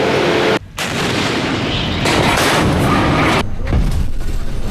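Naval main gun fire from a warship during an exercise in rough seas with heavy rolling: heavy, loud blasts merge into a sustained, roaring rumble that fills the whole clip, with no talk.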